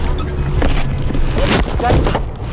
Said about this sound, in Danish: Og lyden af bilens brummende motor får pulsen til at sænke sig en smule.